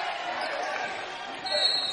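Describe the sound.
A basketball is dribbled during a high school game between the Maplewood Panthers and MLK. Repeated thuds of the ball on the court sound under a voice talking.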